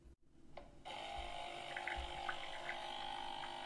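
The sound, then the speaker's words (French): Brownish liquid pours from a machine into a cup: a steady watery hiss and trickle that starts after a brief click and runs without a break to the end. “Athéus fixe le liquide brunâtre se déverser dans une tasse”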